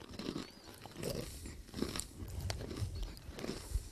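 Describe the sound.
Honey-coated salted nuts being chewed, with many quiet, crisp crunches and bites in an uneven rhythm.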